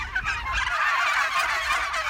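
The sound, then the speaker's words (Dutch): Turkeys gobble in a meadow behind a dike near Goes, with a dense, continuous chorus of rapid, rattling gobbles from several birds overlapping steadily throughout. “Kalkoenen. Ja. Waarom heb jij voor kalkoenen gekozen?”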